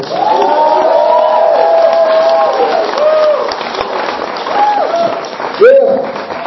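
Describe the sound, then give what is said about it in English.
Cheering and applause erupt from a theater audience welcoming a performer to the stage: loud, sustained clapping mixed with shouting voices, easing slightly midway before a sharp whoop bursts out near the end. “Why don't you put your hands together and let's welcome to the stage, D'Lo!”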